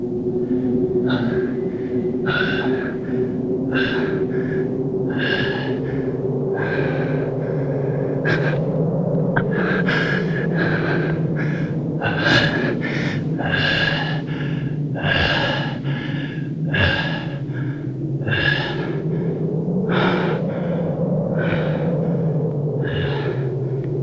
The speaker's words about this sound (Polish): Spójrz na siebie. Jak ty wyglądasz? Nie możesz nawet złapać oddechu.